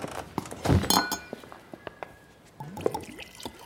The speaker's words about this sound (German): Ich wollte mit euch anstoßen, Commodore. Hier, ein Glas.